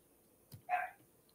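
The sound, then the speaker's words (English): A dog gives one short, faint bark, preceded by a soft thump, then quiet follows. “sorry, that's my dog.”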